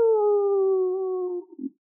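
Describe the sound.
A voice imitates a howling town fire siren with a long, steady, sustained tone that dips slightly in pitch and then breaks off.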